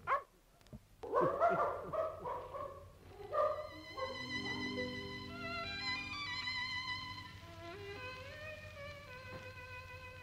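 Dog barking and whimpering in an Arabic radio drama of the Thousand and One Nights, where a man's brother has been turned into a dog: several sharp barks and whines early, then sustained tonal music takes over.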